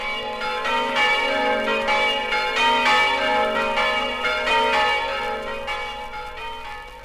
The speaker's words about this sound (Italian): Dallo snello e elegante campanile alto 70 metri, la campana del Duomo di Buia sgrana i suoi festosi rintocchi per salutare gli emigrati friulani.